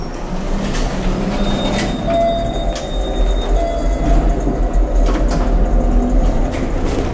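Elevator ride in an apartment building, heard as a steady low mechanical rumble and hum with faint rattles and a few brief high clicks, continuous throughout with no talk.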